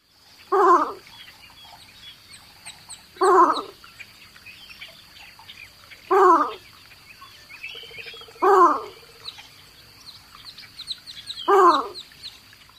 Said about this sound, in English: Their alarm call sounds like this. One more time, the least bittern.